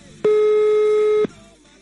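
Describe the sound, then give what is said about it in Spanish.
A telephone tone on a call line sounds once as a steady, buzzy electronic beep lasting about a second. It is loud and alone, then cuts off abruptly into low background noise. “A ver, está sonando el teléfono, está sonando el teléfono.”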